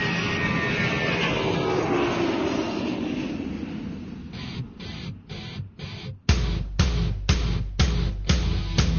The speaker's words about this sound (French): Attache ta ceinture. Toute l'équipe de Radio Shock and Friends se prépare au décollage.